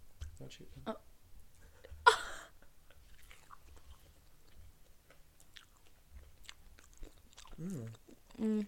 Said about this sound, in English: So should we start with fries? Yeah, start with fries. I just love fries. Okay, okay. Fry dip, first bite. First bite.